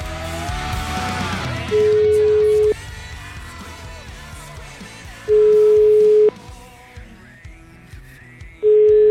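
An outgoing telephone call's ringback tone plays as three long, steady, mid-pitched beeps, each lasting about a second and separated by pauses, over a busy background of other sound.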